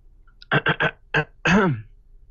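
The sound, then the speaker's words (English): Someone clearing their throat: three quick, harsh bursts in a row, a short pause, another burst, then a longer voiced rasp that rises and falls in pitch. “clear my throat. Let me clear my throat.”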